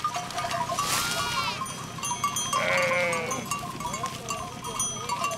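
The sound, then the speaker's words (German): Sheep bleating in a large herd tended by a shepherd on farmland on an island within sight of Tenerife. A few wavering bleats stand out, one early and a higher one later, over a constant murmur of the flock. “Wieder ein Schäfer, wieder eine große Herde.”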